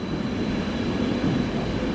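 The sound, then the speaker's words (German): Railjet train from Budapest pulling into a station on a cold November evening, a steady, loud low rumble of wheels and rolling stock that holds even throughout, with no other sounds standing out. “Drei helle Lichter in Dreiecksform nähern sich dem Bahnhof. Der Railjet aus Budapest kommt an.”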